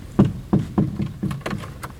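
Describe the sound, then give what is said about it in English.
A door or gate being locked gives several dull wooden clunks and knocks, sharp-onset thuds in an uneven rhythm at moderate loudness. “I'll just lock this.”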